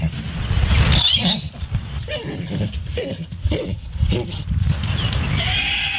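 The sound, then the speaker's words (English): Miniature ponies mating: rough, continuous animal noise of harsh breaths and grunting, with several louder bursts rising and falling across the whole stretch. “So here is the noise of a mini pony mating.”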